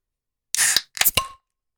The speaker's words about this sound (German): Ich habe nämlich äh, die legendäre Karlskrone gerade geöffnet und die hat gesuppt wie Drecksau, ey.